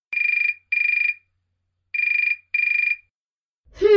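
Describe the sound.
A telephone ringing with a bright, high electronic trill in two double rings separated by a pause, followed at the very end by a voice starting to speak.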